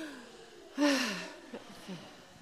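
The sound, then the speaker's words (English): A deep breath during a church service: one loud, breathy intake with a faint voiced tone, followed by a couple of small, soft breath sounds. “Take a deep breath.”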